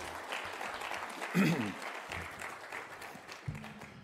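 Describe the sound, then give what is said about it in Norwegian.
Applause for the worship singers at a church service, faint and ragged clapping from the audience mixed with a few scattered voices. “Ska vi ge lovsångarna en applaus?”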